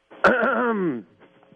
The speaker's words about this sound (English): I don't think a clearing of the throat will do it. I thought we were going to get the real voice as soon as he cleared his throat.